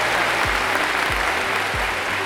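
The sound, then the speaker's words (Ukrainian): An applause sound effect: a dense, steady wash of many hands clapping at an even loudness throughout, with a few low tones sliding underneath. “Включайте ці оплески, де вони, де вони?”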